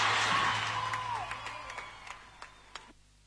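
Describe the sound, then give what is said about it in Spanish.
An audience applauds a dancer at a Buenos Aires event. A burst of dense clapping fades to a few scattered claps before stopping. “¡Aplauso para Coco! ¡Gracias!”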